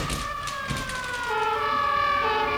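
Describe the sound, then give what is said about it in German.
Emergency vehicle sirens pass far away, several wailing tones overlapping and sliding in pitch, steady and continuous, sounding over a low background rumble with no talk. “Was ist das? Sirenen!”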